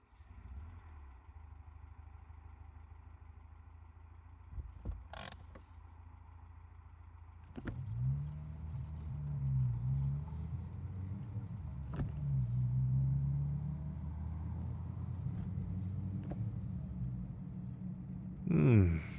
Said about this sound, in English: Dad did a good job. Drives like a dream. It's not the most expensive car we've ever worked on, but it's up there.